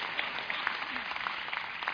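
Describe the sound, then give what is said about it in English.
Audience applause, a dense, steady patter of many hands clapping together, muffled and dull in tone, holding an even level for about two seconds. “Clap, man. I feel by myself here.”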